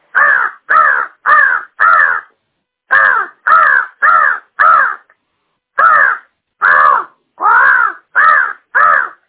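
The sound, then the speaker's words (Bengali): Crow cawing: thirteen harsh, loud caws with no other sound, in three bursts of four, four and five calls separated by short pauses. “দ্বিতীয়ত শোনাচ্ছি কাকের আওয়াজ। কাকের আওয়াজ এরকম।”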